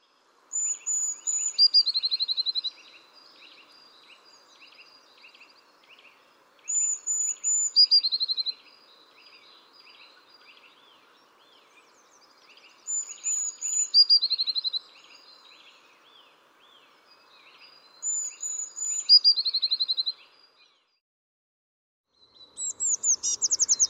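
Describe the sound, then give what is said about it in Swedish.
Blue tit song: five bursts of high, thin trilling phrases, each lasting a couple of seconds, separated by quiet pauses of several seconds, the final phrase cut off. “Blåmes.”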